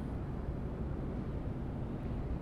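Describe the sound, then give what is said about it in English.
Deep rumble of a train passing overhead, a steady, continuous low roar that holds at an even loudness throughout with no distinct peaks. “that rumble that you might be able to hear. It's a train passing overhead.”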